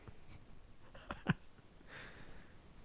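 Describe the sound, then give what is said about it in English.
Faint scratching of a pen writing on paper, a few short dry strokes with one slightly sharper mark partway through, alone in a quiet background. “Writing it down.”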